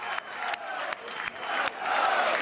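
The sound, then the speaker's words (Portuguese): Crowd cheering and applauding at a football club's election-night celebration, a loud, dense roar of voices and clapping that holds steady throughout, with a few sharper bursts. “Forte aplauso para André Vilas Boas.”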